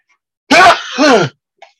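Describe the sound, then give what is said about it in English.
A single loud sneeze comes in two parts: a sharp intake-like burst and then a strong voiced release. Silence falls before and after, broken only by a faint brief sound. “sorry about that. Sneeze.”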